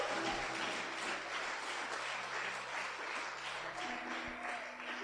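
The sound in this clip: Congregational applause during a church worship service: a faint, steady patter of clapping runs through the whole clip over low sustained tones.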